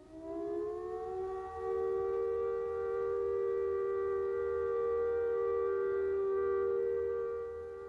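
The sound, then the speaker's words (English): A civil defence all-clear siren sounds one steady, unwavering tone that holds at a constant pitch for the full length, alone and without talk. “When the all clear sounds like this,”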